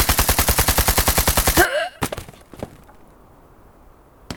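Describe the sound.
Gunfire aimed at young German recruits guarding a roadway beside a small park, near a machine gun nest: a loud, rapid, evenly spaced burst of automatic fire, then a few sharp single cracks over a low rumble.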